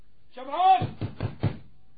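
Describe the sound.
Knocking on a door follows a brief voice, a few firm, evenly spaced knocks with a hollow thud, loud and clear.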